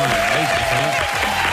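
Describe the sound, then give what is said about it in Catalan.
Audience applause at a Catalan radio show: thick, steady clapping that fills the whole moment, with a voice faintly beneath it. “Deia d'aplaudir una mica més d'entusiasme, eh?”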